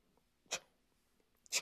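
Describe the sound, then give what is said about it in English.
A voice imitates typewriter keys striking the page with two sharp, clicky mouth bursts about a second apart. The sound is faint and comes alone, with no talk. “a typewriter, it had this little ribbon of ink thingy in it, this little ribbon thingy in there, and it had like ink on that thing. And you would type, you would hit the little letters, and they would pop up, and you would hear it. It'd be like,”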